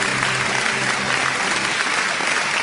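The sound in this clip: Studio audience applause: a dense, steady burst of many hands clapping that holds at an even loudness from start to finish, with no voices rising above it.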